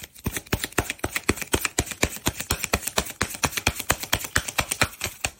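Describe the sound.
Oracle cards being shuffled make a fast, steady run of many crisp, papery flicks and taps in an even rhythm, with no talking.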